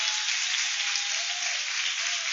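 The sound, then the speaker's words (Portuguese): A church audience applauds to welcome the pastor with an even, continuous wash of clapping. No single claps stand out, and the level stays steady throughout. “Receba o pastor com palma, dando glória, dando glória, dando glória.”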